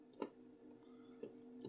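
A few faint computer mouse clicks on an online dice roller during a tabletop role-playing game, each a short sharp tick spaced about a second apart over a low steady hum.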